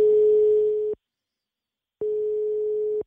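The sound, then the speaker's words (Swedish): Ringback tone of an outgoing telephone call to a sports team's coach: two long, steady, mid-pitched tone bursts of about a second each, with a second of silence between them and no voices. “vi ska ta och ringa den här tränaren för laget, så får vi se om han svarar”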